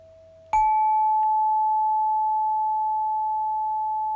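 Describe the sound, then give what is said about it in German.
One crystalline chime tone struck once, then ringing on as a clear, steady, pure mid-high tone that barely fades over several seconds, with no voices. “Und ich schenke dir noch drei Töne aus dem kristallinen Reich der Zwerge.”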